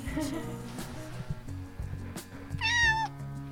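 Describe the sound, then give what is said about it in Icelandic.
A cat in a home gives a single short meow, a bright harmonic cry that bends in pitch, heard over a steady low background hum and murmur. “Ó, kissa.”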